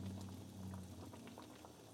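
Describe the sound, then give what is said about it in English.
Marmalade with citrus peels boiling in a pot gives a faint, steady bubbling with small soft pops over a low hum, alone. “I do love the way that marmalade looks when it's cooking.”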